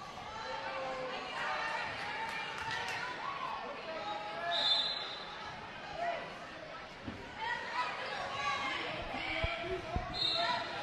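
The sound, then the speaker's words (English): Basketball dribbling on the court during a Huntington game against the Lady Hornets, faint bounces under continuous play-by-play commentary and crowd chatter. “Now trying to beat the press of the Lady Hornets. Langford, though, dribbles to the right and goes out of bounds.”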